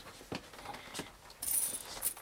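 Gold coins in a treasure sack clink and jingle as it is lifted: faint scattered metallic taps at first, then a brighter, fuller jangle of coins.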